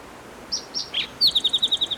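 Spotted towhee song recorded at Cherry Creek locality: three high introductory notes followed by a fast, buzzy trill of rapidly repeated notes over a steady background hiss.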